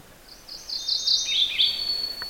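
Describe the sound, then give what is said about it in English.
A mourning warbler sings in brushy ground under an aspen overstory. It gives one short, bright, high-pitched phrase of quick rolling notes, fairly faint over a quiet background. “That's the sound of a morning warbler.”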